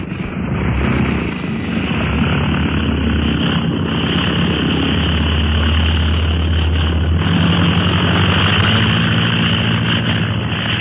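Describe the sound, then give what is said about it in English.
A heavily loaded propeller aircraft takes off with a loud, steady engine drone and a deep low hum that holds for the whole stretch. “In the air. Wasn't that a swell takeoff”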